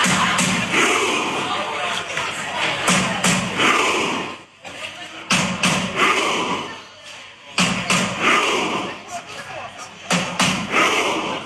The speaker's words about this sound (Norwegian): Ja, der hører du, det er mye roing, det er mye høying, og generelt sett i hele landet da, så har vi fått sett at det er store folkefester når det kommer til disse VM-kampene.